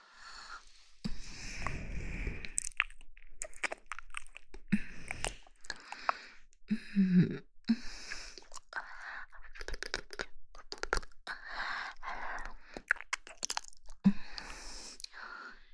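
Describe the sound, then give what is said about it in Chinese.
Wet licking sounds, soft and close, made up of many irregular smacks and slurps with brief breathy pauses between them. “接下来要继续往下舔了。”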